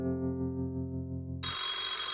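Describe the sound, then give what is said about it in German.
A telephone rings around ten o'clock, a bright, buzzy electronic ring that breaks in suddenly partway through after a steady humming tone, then sounds on continuously and fairly loud with no voices. “Gegen 10 klingelte das Telefon.”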